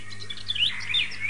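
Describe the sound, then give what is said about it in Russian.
Birds chirp in a steady run of high, thin tweets over a constant low hum, with no talk. “Слышите? Снова прилетели птицы.”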